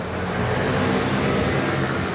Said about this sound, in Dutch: Veel verkeer op straat, op De Meent.